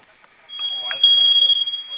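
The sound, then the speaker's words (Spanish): An alarm panel sounds after its two flame buttons are pressed together for five seconds: a steady, piercing high-pitched tone starts after a short pause and holds without a break. “Voy a oprimir los dos botones de la flamita al mismo tiempo por 5 segundos. En cuanto suene la alarma, ingrese su clave que acabamos de dar de alta, por favor.”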